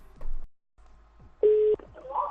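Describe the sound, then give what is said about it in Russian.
A telephone number being dialed: one steady, loud keypad tone, brief and clean, set among muffled voices on the line. “я сейчас позвоню опять в это самое.”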